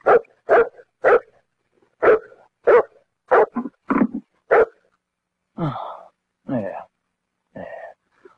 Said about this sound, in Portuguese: Esse cachorro é muito macho. Ele é muito estúpido.